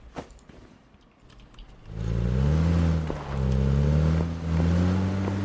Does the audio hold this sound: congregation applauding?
no